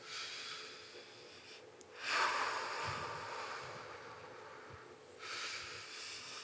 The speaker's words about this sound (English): keep breathing in and out. All the way in, all the way out.